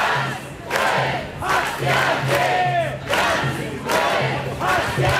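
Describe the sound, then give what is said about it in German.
Crowd of street protesters chanting at a demonstration in Cologne, thousands of voices shouting in loud rhythmic bursts that repeat steadily throughout. “Ganz viele Leute sind da auf die Straße gegangen, laut Polizei rund 9000.”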